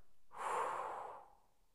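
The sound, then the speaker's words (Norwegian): A single soft puff of breath blowing out birthday candles, an airy whoosh lasting about a second before trailing off into quiet. “Jepp. Alle lysene ble blåst ut.”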